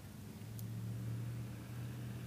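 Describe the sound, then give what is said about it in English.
Large diesel vehicle driving by, heard as a faint, steady low rumbling engine drone. “And hold on, there's a big-ass diesel driving by. Probably going to drop me out a little bit.”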